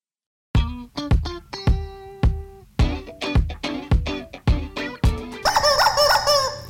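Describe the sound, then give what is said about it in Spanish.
A rooster belonging to the Colombian newspaper El Colombiano gives a series of sharp, loud clucks and calls, ending in a longer warbling crow. “los saluda muy especialmente el pollo del colombiano, pero esto es Mesa Central.”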